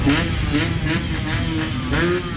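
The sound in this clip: Scooter engines rev among a crowd of young people at a presidential election gathering. Several surging whines climb and drop over a continuous mechanical rumble, loud throughout.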